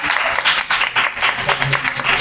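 Loud applause for the winner of a quiz round, a dense burst of clapping that swells and dips in several waves throughout.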